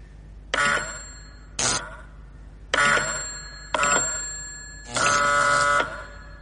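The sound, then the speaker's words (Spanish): An electric bell on a wireless receiver rings in five bright, metallic bursts of differing lengths, each starting sharply, with quiet gaps between them and the final ring lasting the longest. “si presiono este botón, suena la campana del receptor, y todo ello sin ninguna conexión por cable entre los dos aparatos.”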